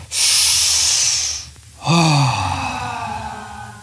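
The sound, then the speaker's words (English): A deep breath drawn in with a long, airy hiss, then let out as a voiced sigh whose pitch slides downward, part of a guided relaxation breathing exercise done while sitting comfortably. “we'll just take a deep breath in and let it out with a sound.”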